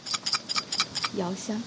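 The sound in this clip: Small clinks and clatters of teaware as Tie Guan Yin oolong tea is prepared in a tea shop in Shanghai's Pudong district. Quick light ticks come first, then a brief voice.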